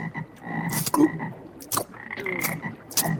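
Frogs croaking in several short, throaty calls spaced irregularly, each a raspy burst over a faint steady background hum.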